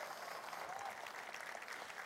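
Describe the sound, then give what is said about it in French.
A church audience applauds, a faint but steady patter of many hands clapping together that holds evenly throughout. “Et à l'avance, j'aimerais que vous applaudissiez ce que l'Esprit va faire dans chacune de nos vies.”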